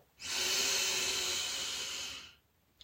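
A long, deep inhale during a guided breathing exercise for easing anxiety, drawn slowly through the airway as a soft, smooth hiss that swells in and holds steady for about two seconds before stopping.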